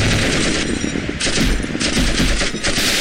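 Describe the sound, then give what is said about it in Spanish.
Rapid automatic gunfire in a video game, loud sustained bursts of sharp, crackling shots running almost nonstop for about three seconds with a couple of brief breaks, no talking over it. “Aquí estoy disparando.”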